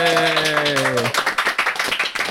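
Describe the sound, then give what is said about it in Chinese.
Applause for a band after its members introduce themselves. A held vocal note opens, then it cuts off into a rapid burst of many sharp, loud claps. “再一次掌声”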